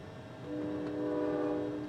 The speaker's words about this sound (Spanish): Y al montarse en este tren con su maleta y despedirse de su hermano, el tren llegaría finalmente a la estación de Leeds.